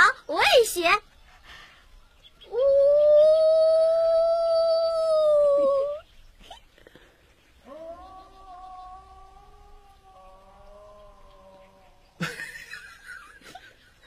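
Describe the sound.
A person imitates a wolf howl with a long, sustained, loud wail, followed by a second, lower and wavering howl, with brief human voices before and after.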